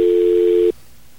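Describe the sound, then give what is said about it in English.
A steady telephone dial tone holds one even, mid-pitched note for under a second, then cuts off abruptly, leaving only faint background hiss. “All right, let's get a dial tone here, and we're going to call that number.”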